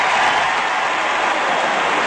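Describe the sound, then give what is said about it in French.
Stadium crowd giving an ovation during a ceremony: a dense, steady roar of applause and cheering that fills the whole stretch, with no single claps standing out. “Et ce sont encore l'ovation.”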